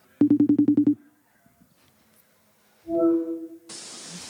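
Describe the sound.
Phone ringing tone as a call is placed: a quick burst of eight buzzy pulses, a short silence, then a brief steady tone that gives way to a hiss of line noise.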